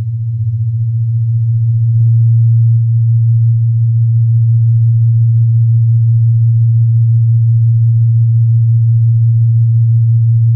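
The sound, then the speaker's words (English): Two close, low steady tones sound together and beat against each other, giving a fast pulsing rhythm of fifteen cycles per second. The hum is loud and continuous throughout, with no talk. “then you'll hear a rhythm of 15 cycles per second.”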